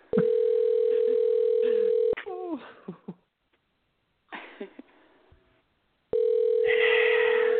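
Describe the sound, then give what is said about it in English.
Telephone dial tone while placing a call: a steady, unbroken mid-pitched hum for about two seconds. Brief scattered noises and a stretch of silence follow, then the same flat tone returns. “I'm making a phone call”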